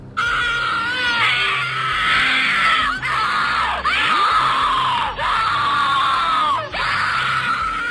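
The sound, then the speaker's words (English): Distorted, wailing screams from the Suicide Mouse video as Mickey walks past people being murdered in their homes, a loud, continuous warbling chorus of cries broken by repeated downward pitch swoops. “If you can hear that, that's Mickey walking by people getting murdered in their homes.”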